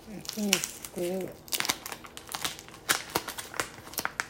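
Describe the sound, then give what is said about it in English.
A paper envelope of mailed postcards is opened: after a brief voice, a run of crisp, irregular crinkles and tearing rustles follows, moderately loud with sharp, uneven bursts. “careful, keep the envelope intact as best as you can.”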